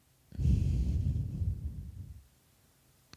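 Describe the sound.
A deep, slow exhale during a belly-breathing exercise: one long, breathy, fairly soft breath of about two seconds, alone with no talk over it.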